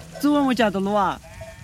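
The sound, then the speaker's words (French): A sheep in a farming village where a couple raises a few sheep lets out two loud, wavering, nasal bleats in quick succession, followed by quiet background. “À quelques kilomètres de là, autre village de paysans où ce couple élève quelques moutons pour survivre.”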